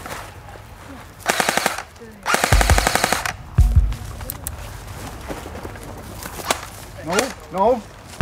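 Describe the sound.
Automatic gunfire during a weapons training exercise of moving between trees under cover: two loud, rapid bursts, the second longer, followed by a few sharper single cracks and quieter movement noise.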